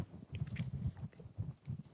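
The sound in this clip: Someone chews Brie de Meaux cheese during a cheese tasting, making soft, moist, rhythmic bites and squishes that repeat several times at a quiet level with no talk over them.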